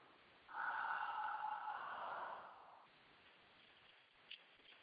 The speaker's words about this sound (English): I'm going to take a big, deep breath.